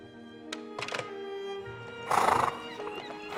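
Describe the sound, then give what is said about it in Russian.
Horses neighing, black stallions by the seashore: a loud, shrill whinny swells near the end, preceded by scattered thumps and clip-clopping hooves, with no talking. “Им привели лошадей.”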